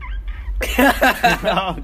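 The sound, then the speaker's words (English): A pet parrot that is missing one eye gives a quick run of loud, harsh, warbling squawks, following a fainter short call at the start. “We also have we also have a parrot here.”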